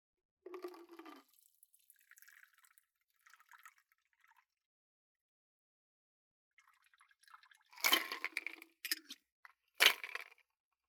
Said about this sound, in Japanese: 注ぐね。